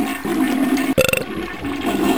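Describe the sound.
Toilet flush, a sudden gurgling burst of rapid watery pulses that gives way to a steady rush of water against a constant background hiss.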